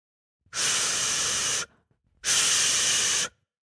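A two-way radio crackles to life with static hiss. Two loud bursts of broad rushing noise, each about a second long, are separated by a short silence.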